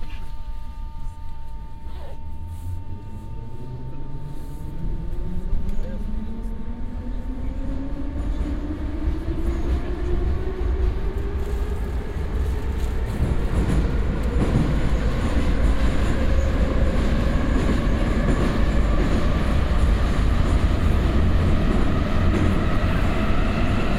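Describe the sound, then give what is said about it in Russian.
A subway train pulls away from a station, its electric motor whine climbing steadily in pitch over a constant heavy rumble that grows louder as it gathers speed. “Станция Площадь Перемоги. Осторожно, двери зачиняются. Наступная станция Площадь Куба Колоса.”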